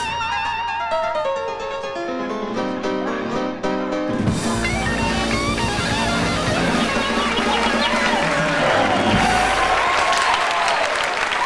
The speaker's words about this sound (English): The crowd dance, and Rita claps along and dances a little too.